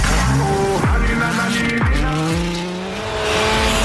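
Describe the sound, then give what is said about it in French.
A car engine revs loudly as the car starts, with a few sharp downward pitch sweeps between gear changes over a dense, continuous background. “C'est juste une voiture qui démarre et la musique derrière?”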